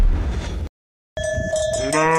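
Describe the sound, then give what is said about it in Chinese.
Bells clink and ring among livestock as a yak herd returns to a pasture hut in early morning after a night out in the open. The sound is steady and busy, cut by a brief silence partway through. “清晨，在野外过夜的牦牛陆续回到牧场小屋，牛群一到”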